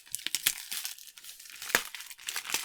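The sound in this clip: A wrapped package being opened: its paper or plastic wrapping crinkles and tears in many quick, crisp bursts, one sharp crackle standing out near the middle.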